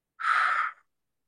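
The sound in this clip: A single deep exhale during a guided breathing exercise: a soft, breathy rush of air lasting about half a second, heard alone and then fading quickly into silence.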